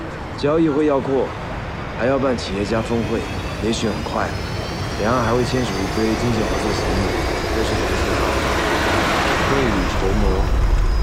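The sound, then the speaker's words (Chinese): Aircraft noise from a nearby airport shared with residents: a broad rushing roar that swells toward the end, beneath a man's ongoing speech. “但是这边有个机场，还是居民合用的，噪音这么大，你还搞什么旅游酒店？”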